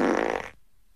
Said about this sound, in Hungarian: közönséges szellentés.